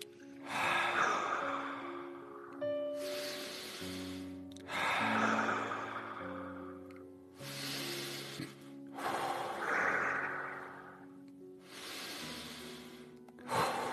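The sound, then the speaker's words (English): Deep, forceful breaths in a guided breathing exercise, many long rushing inhales and exhales in a steady rhythm over soft, sustained background music tones. “This 5th breath is twice as large. With no pause, we're going into round 3.”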